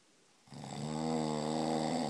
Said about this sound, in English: Shh, you're snoring.